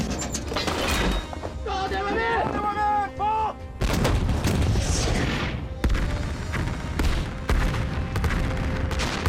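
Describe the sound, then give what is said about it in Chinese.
Artillery cannon fire: several heavy, loud booms with long rumbling tails, with voices talking between the blasts. “你现在赶紧开炮”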